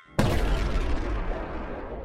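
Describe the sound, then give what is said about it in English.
A large explosion as an energy crystal shatters after tearing free above a generator: a sudden loud blast, then a dense, roaring rumble that slowly fades over about two seconds. “The lights continue to flicker just before the crystal shatters, emitting a bright light and a large explosion.”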